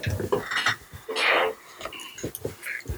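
Several dice roll on a table during a tabletop role-playing game, giving an uneven rattle and scattered clattering ticks of moderate loudness with no clear rhythm.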